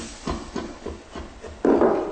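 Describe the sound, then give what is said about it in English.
Veggie broth is poured slowly into gravy in a coated pan, giving a few soft, rhythmic splashes and then a louder, sustained hissing pour near the end. “So let's add that veggie broth in there. You want to add it in sort of slowly.”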